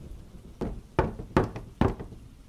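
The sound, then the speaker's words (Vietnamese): Knocking on a door at night during wind and rain: four dull, evenly spaced knocks, the first a little softer, over a low, steady background noise. “Tiếng gõ cửa cứ vang lên 3 tiếng một hồi.”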